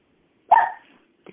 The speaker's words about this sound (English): Sorry, my dog.